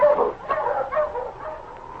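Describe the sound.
A sled dog team yips and whines in overlapping high, wavering calls, a steady moderately loud chorus with no talk over it.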